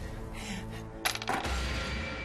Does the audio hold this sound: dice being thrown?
yes